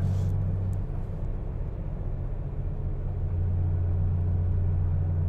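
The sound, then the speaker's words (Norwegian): A car creeps along very slowly, giving a quiet, steady low engine rumble that stays even throughout, with no voices. “Jeg kjører bare veldig sakte og har fullradaren på.”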